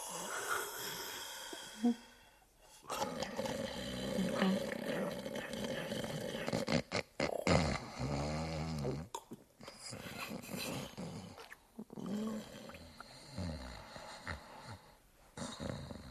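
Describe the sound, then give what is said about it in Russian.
Loud, rough snoring from a sleeping man: harsh, growling, rasping breaths in several long, drawn-out bouts with short gaps, heard alone without talk. “Как только я услышал храп, дремота сморила и меня, и я тоже уснул.”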